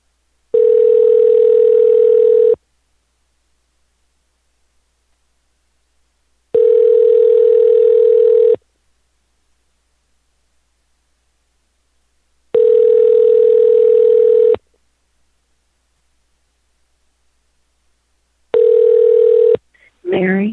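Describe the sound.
A telephone line rings before going to voicemail: a steady ringback tone sounds four times at even intervals, each about two seconds with long silences between, the last cut short. A voice starts right at the end.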